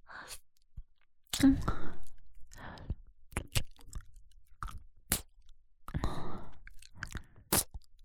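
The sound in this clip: Close, wet chewing of food with a few sharp crunchy clicks and soft breathy mouth sounds, coming in irregular bursts with short pauses between, fairly faint throughout.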